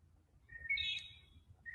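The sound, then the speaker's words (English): Faint bird chirps outdoors in the morning: a few short, high whistled calls over a low, steady background rumble. “As you can hear the birds chirping. Birds are good. I like nature as well.”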